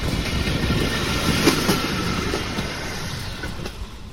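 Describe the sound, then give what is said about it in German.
A red pedal-powered rail draisine, rented by tourists, rolls along the tracks of an old railway line beside a cycle path. It makes a steady, broad rumbling rail noise with faint clicking, unbroken and without voices. “Auf einem Abschnitt fahren rote Draisinen, Touristen haben sich eine geliehen, treten in die Pedale”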